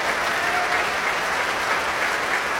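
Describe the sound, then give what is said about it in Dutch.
Enthusiastic audience applause after a performance of Ysaÿe's third violin sonata: thick, continuous clapping from a full crowd, steady and strong from start to finish. “Ja, nu hoort het, het publiek. Is zeer enthousiast.”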